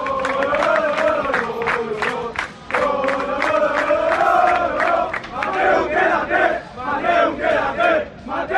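Football fans chant in support outside the Valencia club headquarters as the sporting director arrives, a loud crowd singing rhythmic phrases in unison with a few brief breaks between lines.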